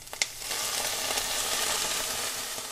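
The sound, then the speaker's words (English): Short grain white rice sizzles steadily as it browns and toasts in whole butter. The frying hiss is loud and continuous, with a small click near the start. “I'm browning it in whole butter, so it's getting nice and toasty.”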